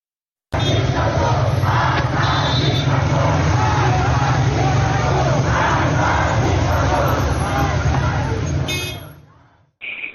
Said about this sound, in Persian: روز گذشته 3 مدرسه محمد در خیابان قصردشت تهران دست به راهپیمایی تجمع دادن. اگر صداش آماده باشه میتونیم با هم بشنویم.